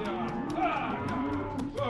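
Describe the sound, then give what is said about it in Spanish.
Cattle low as cowboys on horseback herd them toward a rodeo, a few drawn-out moos rising over a steady, dense bed of herd noise. “Los vaqueros arrean el ganado hacia donde tendrá lugar el rodeo.”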